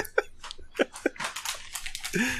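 Someone bites into a citron with a few sharp, crisp crunches followed by wet chewing, fairly faint, with a short voiced sound at the very end.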